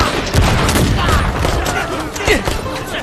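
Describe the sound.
Gunfire in a battle: a dense, continuous fusillade of cracking shots and bursts with no pause for three seconds, loud, with voices mixed into the din.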